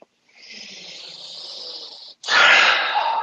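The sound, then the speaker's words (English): A deep breath drawn close to the microphone comes as two long, airy rushes of breath, the second sudden and louder than the first. “That was a deep breath, and it was right in my ear.”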